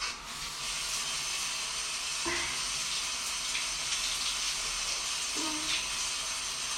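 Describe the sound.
Water runs in a steady, hissing stream while someone washes, continuous and fairly loud throughout, with a couple of faint clunks partway through.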